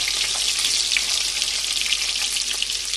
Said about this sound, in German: Dann schön von allen Seiten braten.